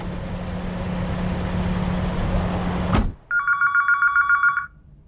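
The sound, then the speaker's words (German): A telephone rings in a short burst of rapid, bright electronic trills, right after the steady rumble of a running car engine cuts off. “Telefon, Telefon!”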